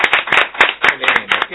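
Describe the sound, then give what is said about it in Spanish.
Hand claps for a guitarist, sparse and uneven, with many separate sharp claps close together rather than a blended roar, as only a few people clap briefly. “Un aplauso para Negro.”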